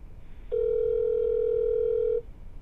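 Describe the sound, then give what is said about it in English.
A telephone tone plays while a caller dials back after a dropped call. It is a steady single-pitch tone, loud and level, lasting under two seconds, with only faint background noise around it. “I'm going to call him back, but we'll keep talking while I'm calling him back.”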